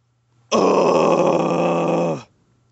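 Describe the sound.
A massive groan of discontent from a human voice: one loud, sustained, buzzy vocal moan held at a fairly steady pitch for nearly two seconds, then cut off abruptly, with no talk.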